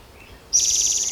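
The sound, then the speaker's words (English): An orange-crowned warbler sings one high, rapid trill that starts abruptly and holds at a steady pitch, clear and fairly loud against a quiet background. “Orange Crown Warbler also singing.”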